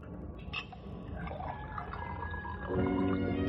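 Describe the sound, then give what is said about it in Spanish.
A drink is poured into a cut-crystal glass: soft, uneven trickling and splashing that settles into a steadier, more tonal filling stream near the end. “Es un trago. David sirve a Nancy en una copa de cristal tallado.”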